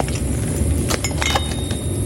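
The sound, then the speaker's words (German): Glass test tubes being handled: light, brief glassy clinks and taps scattered over a steady, noisy background hiss. “Jetzt müssen wir erstmal was finden, wo wir etwas von der Chemikalie reintun können. Da vorne habe ich Reagenzgläser gesehen.”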